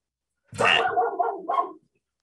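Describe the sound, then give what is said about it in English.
A pet dog gives a single rough, drawn-out bark lasting just over a second. It is loud and stands alone, with no talk around it. “that's my dog, Luna.”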